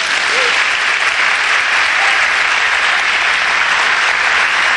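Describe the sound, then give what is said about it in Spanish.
Steady audience applause during a religious sermon: a dense, continuous wash of many hands clapping at an even, loud level for the whole clip, with no single voice standing out. “Le damos un aplauso.”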